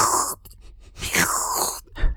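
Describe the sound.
A voice imitates someone slurping a cup of tea, producing a few noisy, airy sucking slurps with a short pause between them.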